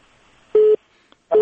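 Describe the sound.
Telephone line tones as a listener's call is connected on a radio phone-in: two steady mid-pitched beeps with a faint click between them, the second tone still sounding at the end.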